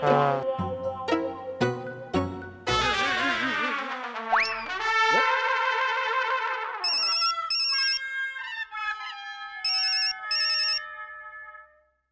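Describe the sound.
A phone ringtone plays while an outgoing call is placed. It is a bright electronic melody of shifting tonal notes with springy, gliding tones partway through, followed by clusters of high repeated beeps, and it trails off at the end.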